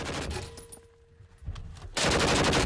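Machine gun fire during target shooting: a loud rapid rattle, a short quieter gap with a brief crack, then a sustained, dense burst that runs to the end.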